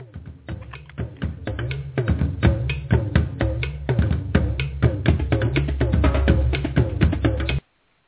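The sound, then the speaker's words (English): Drum roll sound effect played to welcome a speaker: a steady run of rapid percussive hits with deep low thuds, lasting about seven seconds and then cutting off abruptly. “I'm going to give you the drum roll, and that's something we do here as our way of showing our appreciation to our speaker.”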